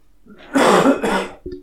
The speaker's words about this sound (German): Oh, ich muss husten.